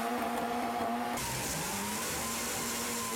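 Engine of a small Fiat race car running in sixth gear, a steady buzzing harmonic drone that turns broader and rougher after about a second, holding strong to the end.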